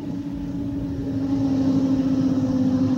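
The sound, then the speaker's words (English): Four security Land Rovers approaching produce a steady low engine drone with a sustained hum, growing slightly louder partway through, with no voices. “Four security vehicles approach from a distance. Well, friend, here they come.”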